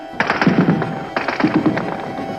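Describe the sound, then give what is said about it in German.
Heavy gunfire during the 17 June 1953 uprising in the Soviet sector of Berlin: two clustered volleys of rapid, sharp cracks separated by a short pause, over a steady background hum. “Beginnt soeben wieder ein heftiger Schusswechsel.”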